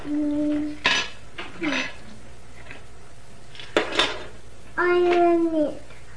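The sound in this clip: Spoons clink and clatter against dishes in a few sharp, brief knocks, mixed in among a small child's babbling and an adult's voice.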